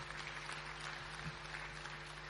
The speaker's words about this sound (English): A big round of applause once more, please, folks, to Mia and also Louis.